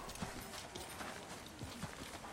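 A horse's hooves clip-clop near a stable in a steady walking rhythm. The hoofbeats are faint and evenly paced over a soft background.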